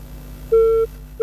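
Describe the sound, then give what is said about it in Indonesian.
A telephone line tone sounds after a call is cut off: one short, steady mid-pitched beep, then the start of another, over a faint low hum. “Oh, terputus. Dicoba kembali ya.”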